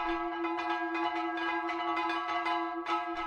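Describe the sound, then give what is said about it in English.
A sixen, the percussion instrument from a Xenakis composition, is struck many times in an uneven rhythm, each hit giving a bell-like ringing tone with a steady pitch that sustains beneath the next strike. “He only gives vague instructions in the written score on how to build the sixin and what it's supposed to sound like, so some sound like this.”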